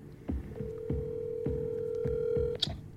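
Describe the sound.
A telephone call being dialed and ringing: a steady mid-pitched line tone holds for about two seconds over a regular low thumping pulse, then cuts off with a brief click.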